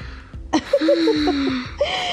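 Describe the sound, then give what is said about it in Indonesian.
A deliberate, drawn-out yawn: a breathy intake opens into a long voiced tone that sags slightly in pitch, then trails off into a soft breath. “Dan maaf itu saya tadi sengaja. Sengaja apa? Sengaja nguap”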